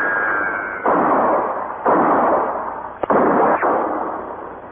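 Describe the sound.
Gunfire in a radio drama shootout, several loud, sharp shots with long decaying tails, one crack much shorter and snappier than the rest.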